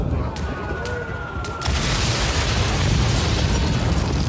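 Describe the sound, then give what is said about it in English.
Artillery shells exploding around a muddy battlefield trench: a thin steady high tone sounds first, then a sudden dense blast breaks in and carries on as a loud, continuous roaring rumble to the end. “More shells came down.”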